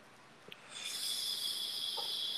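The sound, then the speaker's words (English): A person takes a long, steady inhale, a continuous airy hiss that begins after a few faint clicks and holds evenly to the end. “How's that? Did you get a good inhale there? Yeah. That was a good one.”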